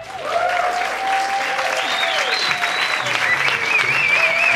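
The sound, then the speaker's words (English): Enthusiastic applause from a live audience at a festival show in London in 2018, steady, dense clapping with whoops and whistles rising above it throughout. “I want you to put your hands together”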